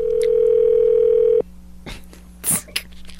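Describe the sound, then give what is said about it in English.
Telephone dial tone while placing a call to Brooklyn, New York: a steady, single-pitched hum holds loud for about one and a half seconds, then stops, followed by a few faint clicks and a short, sharp burst. “Dialing Brooklyn, New York.”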